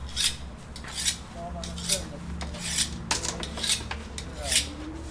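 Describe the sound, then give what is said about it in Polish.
A kitchen knife is sharpened before cutting rolled noodle dough. Repeated rasping metal strokes come in a steady rhythm, roughly one per second, moderately loud. “A teraz... Nóż trzeba naostrzyć.”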